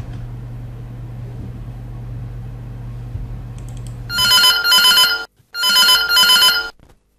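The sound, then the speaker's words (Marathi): Telephone bell ringing on a Marathi radio phone-in: two loud bursts of bright, trilling ringing with a short gap between them, following several seconds of low steady hum, with no voices. “चला फोनची bell वाजते, पाहूया ऐकूया पहिला phone कुठल्या गाण्यासाठी आहे.”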